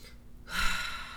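A single slow, deep breath is drawn in after a brief silence. It is quiet and airy and swells, then eases off.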